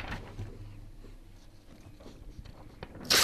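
A paper award envelope is ripped open, one short, sharp tearing burst at the end after quiet handling rustles.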